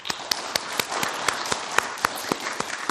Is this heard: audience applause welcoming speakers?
yes